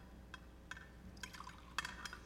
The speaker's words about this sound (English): he took the cup and poured it out